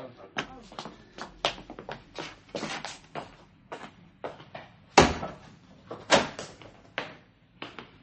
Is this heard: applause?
no